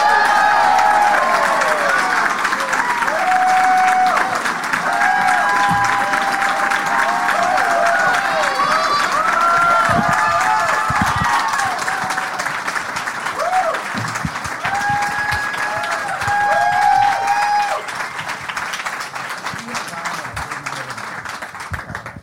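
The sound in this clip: An audience applauds and cheers to welcome three guests: loud, steady clapping with whoops and shouted voices rising over it, easing slightly toward the end.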